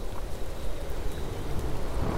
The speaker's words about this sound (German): Außerdem tut ein bisschen Regen auch mal ganz gut. Dann müssen wir wenigstens nicht so viel schwitzen.